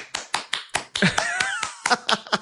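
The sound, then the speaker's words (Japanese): Scattered applause from a live audience: roughly ten sharp, separate handclaps in an uneven rhythm, fairly loud and without voices. “温かい拍手ありがとうございます。”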